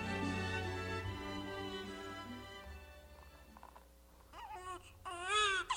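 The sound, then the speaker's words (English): A newborn baby cries in a short burst of high, wavering wails near the end. The cry is louder than the quieter, steady tones that come before it. “A newborn baby's cry?”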